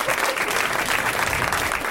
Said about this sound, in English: Way to milk the applause.